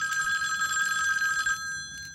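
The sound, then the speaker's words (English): A bow-shaped telephone rings with a bright, continuous electric bell trill of steady high tones. The ringing stops after about one and a half seconds, leaving a softer fading tone. “The bow is ringing. I'll answer it.”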